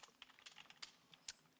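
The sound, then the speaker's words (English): Typing on a computer keyboard while entering a search query: many quick, light keystrokes in an irregular rhythm, faint and crisp, with no voices. “I'm gonna type in list of”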